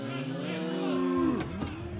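A cow bought at a market moos once, a low, drawn-out call whose pitch bends downward toward the end, at moderate loudness with no talk over it.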